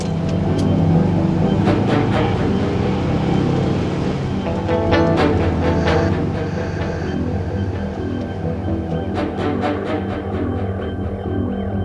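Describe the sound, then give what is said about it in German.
A car engine as the car drives off, a continuous low throbbing hum that holds fairly level throughout. “Dann fahren wir gleich zu ihm, okay?”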